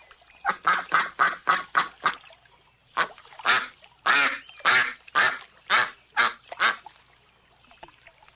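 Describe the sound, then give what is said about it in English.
Ducks quacking: a quick run of about seven harsh, nasal calls, then a short pause and a slower series of many more loud, honking quacks, alone with no talk. “Ducks quack.”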